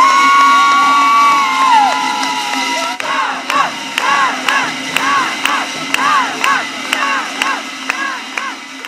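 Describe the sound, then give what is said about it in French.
A packed hall at Kloten airport greets athletes returning from the Sochi Games. At first a sliding, whistle-like tone rises and falls over the crowd. Then the crowd cheers and chants to a steady rhythm, with sharp regular beats marking the pulse. “Mais dans la salle comble, l'assistance a patienté dans la bonne humeur. Ambiance de feu à l'arrivée des athlètes et de Sarah Forster.”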